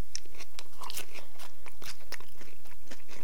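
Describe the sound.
Crisp crunching and chewing of a homemade onion bhaji made with insect, a steady run of many sharp, irregular bites and crackles heard alone without any talking.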